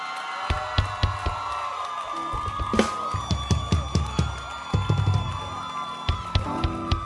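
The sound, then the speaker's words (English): Church audience clapping hands to welcome a new bishop, a steady rhythmic run of sharp claps with cheering voices mixed in across the crowd. “Yes, keep clapping your hands.”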